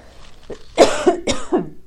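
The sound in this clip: Dry coughing from a tickle in the throat: a couple of sharp, fairly loud coughs in quick succession after a faint lead-in.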